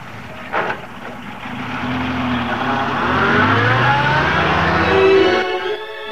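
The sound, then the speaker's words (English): A car reverses out and drives off, its engine a steady rumbling drone that builds gradually, holds loud through the middle and eases slightly at the end, with no talk. “He reverses out and drives off.”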